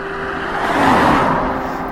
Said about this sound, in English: A uh, blue, a uh, small BMW, a uh, diesel maybe a 3 series.